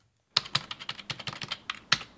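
Current figures are typed into a spreadsheet on a computer keyboard in an office. Crisp key clicks come in an uneven, fairly quick run, with a few sharper, louder taps among them.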